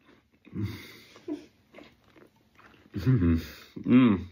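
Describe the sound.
Someone eating oat porridge with a bit of apple, giving a few soft, wet chewing and biting sounds, followed by a voice near the end.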